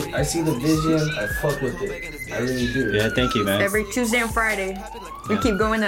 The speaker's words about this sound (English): Is that cop car in my neighborhood, or is it in the song?